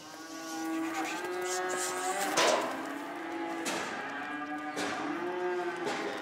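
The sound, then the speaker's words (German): Young farm animals, apparently calves given the clear lowing, being driven onto a transport trailer. They moo several times in a row, each call drawn-out and fairly loud, with hardly any pause between them. “Heute hilft sie zum Beispiel ihren Mitarbeitern dabei, Jungtiere auf einen Transporthänger zu treiben.”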